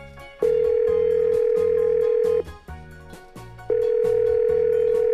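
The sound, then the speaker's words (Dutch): Ringing tone of an outgoing phone call: two long, steady, loud tones of about two seconds each, separated by a pause, over a pulsing background music beat. “Dus ik ga haar bellen.”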